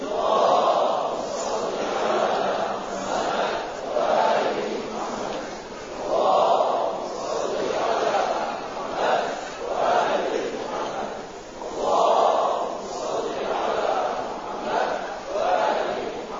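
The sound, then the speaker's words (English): A large crowd loudly recites salawat in unison, the chanted phrases repeating in steady rhythmic waves that swell and ease throughout. “please welcome His Eminence Sayyid Mahdi Mudarrisi with three loud salawat ala Muhammad wa ali Muhammad”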